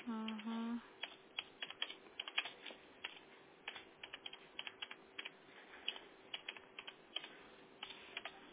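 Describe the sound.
Typing a person's full name on a computer keyboard: many quick, light key clicks in irregular bursts, faint throughout, with a brief voice at the start.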